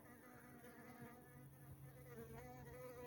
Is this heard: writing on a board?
no